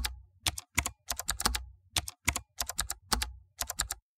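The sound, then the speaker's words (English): Typing a search query on a computer keyboard: many crisp key clicks in quick, uneven bursts separated by brief pauses, heard alone without talk. “Let me type in LA single women seeking dry sense of humor.”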